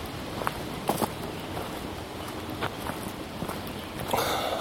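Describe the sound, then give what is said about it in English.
Footsteps walking through ferns on a loop trail: a few soft, irregular rustling steps and brushing sounds against a steady, hissing outdoor background. “Speaking of dinosaurs, I'm walking through a bunch of ferns.”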